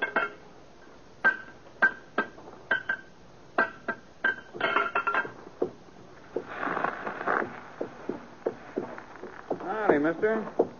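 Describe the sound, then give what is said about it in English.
Horse hooves clip-clop as the animal limps on a loose, split shoe: a string of sharp, hollow knocks in an uneven rhythm, faint to moderate, followed later by people talking. “Well, the horse is losing a shoe here.”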